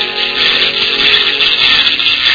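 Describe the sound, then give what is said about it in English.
A hand-cranked glass globe friction machine spins at high speed with a hand pressed against the glass, making a loud, continuous whirring drone with a rough grinding edge that holds steady throughout. “He mounted a glass globe on a crank and turned it at high speed with one hand while holding the other hand against it to create the necessary friction.”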